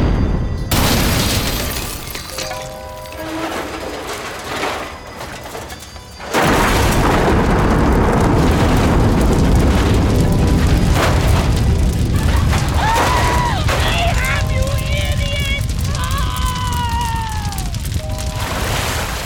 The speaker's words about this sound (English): The yacht exploded the minute it was hit.